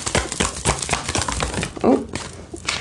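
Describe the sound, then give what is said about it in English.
A tarot card being drawn from a deck: a busy run of quick papery rustles, flicks and snaps, with a denser crinkle near the end. “All right, we'll get one more card from this deck.”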